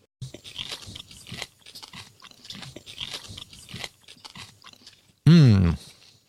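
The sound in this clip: Soft crunching and wet mouth sounds of chewing a mock oyster bite, mixed with low talk, then a sudden loud voiced hum near the end.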